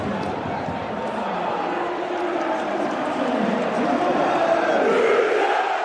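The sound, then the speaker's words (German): A football stadium crowd erupts after a goal from a free kick. A dense, sustained roar of cheering and shouting stays loud throughout and swells slightly toward the end. “Hier ist alles hochgeflogen nach einem Freistoß für Rot-Weiß Essen und dem Tor von Torben Müsel. Mal kurz reinhören.”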